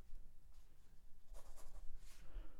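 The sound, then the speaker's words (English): A pen scratches faintly on paper as someone writes down a choice during a guessing game, a run of soft, scratchy strokes. “Did you just write it down in front of me?”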